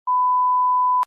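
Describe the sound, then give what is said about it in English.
A single steady mid-pitched electronic beep from a debate timer warns that ten seconds remain. It holds evenly for about a second and ends in a brief sharp click. “You will hear a beep when you have 10 seconds to go, and it will sound like this.”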